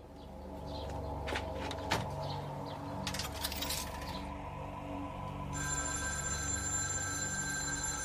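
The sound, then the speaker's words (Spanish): A telephone rings with a steady, high electronic tone that starts partway through and continues to the end, over a low background hum with a few brief clicks earlier on. “Tras varios días, una llamada es registrada por el FBI.”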